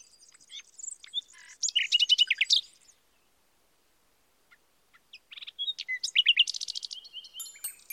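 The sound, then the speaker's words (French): Birds sing in tree branches with bright, high chirps and rapid trills, heard in two lively bursts separated by a pause of silence. “De jolis oiseaux qui chantaient sur les branches des arbres.”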